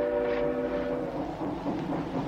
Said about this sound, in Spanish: El hombre trajeado pasa al interior del tren a la vez que éste se aleja.